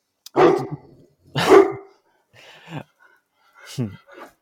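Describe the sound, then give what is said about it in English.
A pet dog barks indoors at home, giving a few sharp, loud barks spaced apart, each followed by softer, shorter yelping sounds, with a person's voice also present. “oh, that's my dog. He's just being a goober.”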